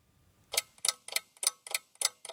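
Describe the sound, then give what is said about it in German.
A tall, tower-like mechanical wooden clock on an outdoor art trail ticks in a steady, even rhythm. Seven crisp, bright ticks come at regular intervals, each sharp and clear against quiet surroundings. “Ich stehe vor einer turmartigen mechanischen Holzuhr.”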